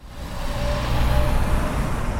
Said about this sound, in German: Täglich fahren hier 18.000 Autos und Lastwagen vorbei und etwa 700 Busse.